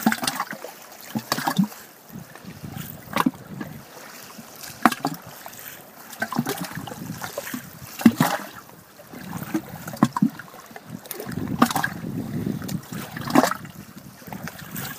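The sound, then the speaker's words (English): Lake Crescent water sloshing under a hollow log in a quiet cove in Washington: soft, irregular lapping and gurgling with many small splashes and hollow knocks rising and falling over a faint steady background. “The sound comes from the quiet cove and waves sloshing around under a hollow log.”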